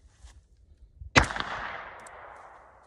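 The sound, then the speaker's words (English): A single sharp shot from a Waffe PK380 pistol cracks loudly and leaves a ringing decay, preceded by faint small clicks and taps. “Us Lutherans believe that superior technology comes from Germany, so I will be shooting the Waffe PK380.”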